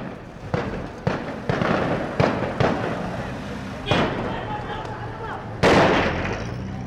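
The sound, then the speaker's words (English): Gunfire in a city square near the central bank: several sharp shots crack out at irregular intervals over a steady, noisy background, with one of the later reports standing out loudest. “While the firing went on”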